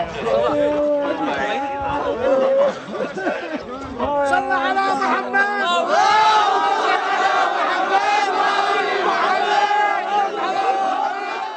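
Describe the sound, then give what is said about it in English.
A street crowd of townspeople cheers and shouts to welcome Marines, with many overlapping raised voices forming a loud, continuous din that swells and stays high throughout. “They embraced in the street as others cheered.”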